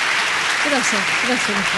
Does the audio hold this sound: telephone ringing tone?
no

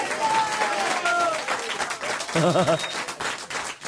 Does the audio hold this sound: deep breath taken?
no

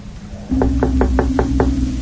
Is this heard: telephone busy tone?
no

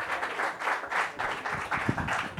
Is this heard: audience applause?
yes

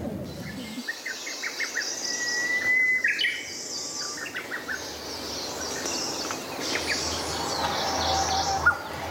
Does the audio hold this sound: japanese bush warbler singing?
yes

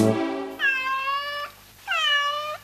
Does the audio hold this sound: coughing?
no

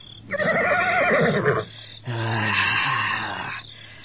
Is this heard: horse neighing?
yes

